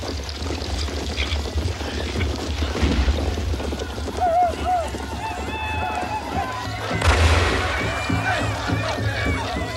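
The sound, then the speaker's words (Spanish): Hoofbeats of several horses arriving with riders, mixed with voices and other busy sound, with a louder swell near the middle and another toward the end. “Llegan varios jinetes.”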